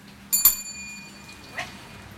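A bright bell rings once in a kitchen as food is ready for service, its clear tone lingering and slowly fading over a low steady background hum.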